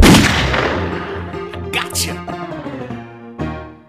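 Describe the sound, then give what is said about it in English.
A single loud gunshot in a video game: a sharp blast at the start followed by a long, ringing decay that fades away. “You just got yourself shot.”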